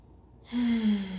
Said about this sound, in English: And taking another deep breath with me if you'd like.